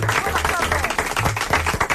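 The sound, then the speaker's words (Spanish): An audience applauds a guest on a talk show. A brisk patter of clapping hands mixes with voices and a low humming tone underneath. “Un aplaudiment per Charo García Lomas.”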